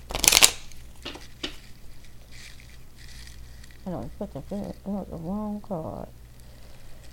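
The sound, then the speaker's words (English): Tarot cards being shuffled during a channeled reading: a brief, loud riffling burst at the start, then softer rustles as a voice sounds. “I think I just mixed the cards up by accident.”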